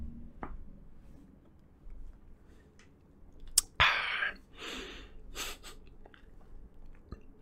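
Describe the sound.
Chewing a bean, with moist mouth noises and a few sharp crunching clicks that build into louder bursts of chewing midway, then ease off.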